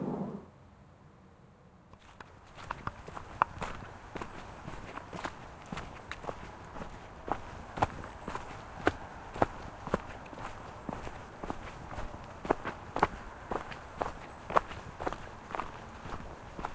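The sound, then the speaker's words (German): Footsteps walking downhill along a forest path on an autumn evening. Many steady, crunching steps begin after a short quiet start and keep an even walking rhythm to the end. “Ich gehe jetzt mal weiter. Ich müsste jetzt euch dann nur noch bergab, hoffe ich, und bin dann in Hirsau.”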